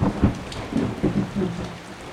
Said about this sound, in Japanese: でも先生の読みより少しだけ雨の方が早かったみたい。